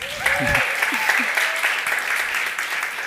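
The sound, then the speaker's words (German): Audience applause welcomes guests on a show, with dense, continuous clapping that holds at a steady level from start to finish. “Herzlich willkommen und Riesenapplaus für euch.”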